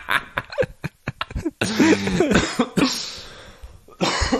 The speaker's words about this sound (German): Also, Husten ging auch, ja, genau. Akustisches Zeichen.